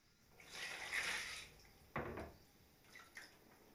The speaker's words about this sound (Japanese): お湯もちょうどいいし、かけ湯をしてっと。